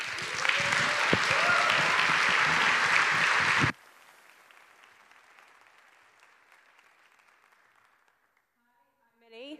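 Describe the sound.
Conference audience applauding to welcome the speakers at a talk on policing and data exploitation: loud, dense clapping that stops abruptly, leaving a quiet room before a single voice starts speaking at the very end.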